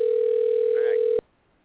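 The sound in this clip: A telephone dial tone plays while an Arizona number is being dialed. The steady, loud tone is briefly overlaid by a voice, then cuts off abruptly, leaving near silence.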